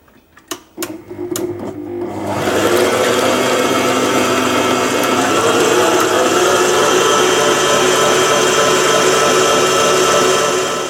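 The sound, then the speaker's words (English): An electric hand mixer beats a creamy mixture on high. A few clicks come first, then the motor spins up into a loud, steady, unbroken whir that lasts about nine seconds. “Put on the attachment, or if you're just using a hand mixer, then just start beating. Now we want to mix this on high until it's nice and creamy.”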